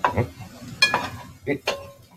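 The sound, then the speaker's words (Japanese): Bacon and garlic being stir-fried in a pan: a few sharp clattering scrapes of a utensil against the pan stand out over a soft, continuous sizzle. “ベーコンをニンニクで炒めて、炒めてます。”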